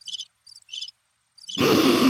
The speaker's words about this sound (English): It's my awkward crickets. It was awkward crickets.